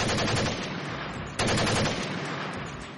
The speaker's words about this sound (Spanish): Sin previo aviso, sacan sus armas y disparan contra la presidenta.